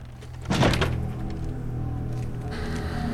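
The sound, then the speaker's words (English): A house door reopens as someone drags a holdall inside, giving a single dull thunk followed by a low, steady hum. “Someone looks on as his door reopens and he drags the holdall inside.”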